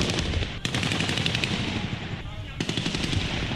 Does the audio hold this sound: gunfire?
yes